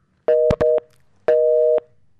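After a caller's call drops, a telephone busy signal sounds loud and alone: two short mid-pitched tones in quick succession, a pause, then one longer matching tone.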